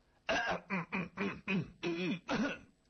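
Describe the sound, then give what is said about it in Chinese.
A human voice performs a throat clearing and coughs as a series of short, gruff, voiced bursts, moderately loud and alone, with no other sounds. “咳嗽两声，那意思是我来了。”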